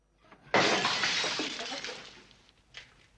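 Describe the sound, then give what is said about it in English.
Glass bottle hurled across a bar and smashing on a table: one sudden loud shattering crash, followed by a scatter of tinkling fragments that fade, then a small late clink. “It smashes on Jack's table.”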